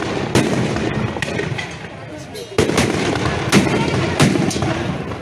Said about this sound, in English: Those are percussion grenades.